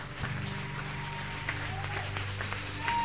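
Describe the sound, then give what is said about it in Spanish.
An audience claps for the Lord at a youth church camp, a fairly quiet patter of hands over a low steady drone. “¿Por qué no le damos un fuerte aplauso al Señor?”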